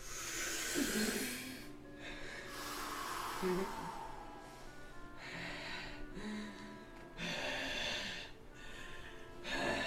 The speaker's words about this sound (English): Take three deep breaths. No, slow,